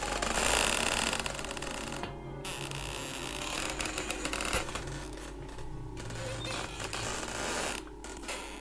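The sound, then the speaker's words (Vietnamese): Creaking door hinge in a room at night, a sustained, scratchy, grinding creak that runs the whole clip at a fairly even loudness with small swells, with no voices. “Ở phía sau, tiếng bản lề nơi căn phòng vẫn vang lên trong đêm như âm thanh khó chịu. Nó cứ cọt cà cọt kẹt, cọt cà cọt kẹt.”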